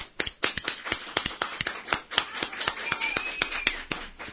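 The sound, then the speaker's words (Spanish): Hands clapping after a music performance: many sharp, crisp claps in a quick, fairly even rhythm, brisk and moderately loud, with no talking. “Muy bien, aplausos.”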